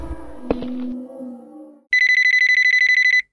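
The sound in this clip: A telephone rings with an incoming call. After a low droning tone marked by one sharp hit, a loud electronic ringtone trills in a rapid, even, high-pitched warble for over a second, then cuts off.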